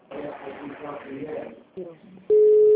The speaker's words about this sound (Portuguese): Não, tem alguém ligando pra alguém. Quem tá ligando aí?